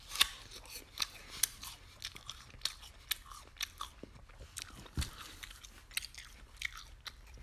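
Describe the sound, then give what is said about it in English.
Crisp biting and chewing of a Golden Delicious apple: many sharp, crunchy snaps in an irregular rhythm over steady munching, with no talking. “I'll have the Golden Delicious right here. I'll taste it a little more.”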